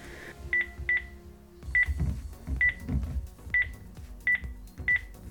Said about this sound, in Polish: Zablokujemy go sobie i ja sobie do siebie zadzwonię.